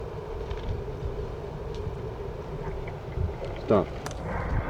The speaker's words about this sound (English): I just moved to shield the parabola from the wind.